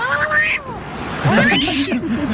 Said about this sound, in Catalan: Sí, això és el gat protestant al seu rescat i no en Jordi Balaguer.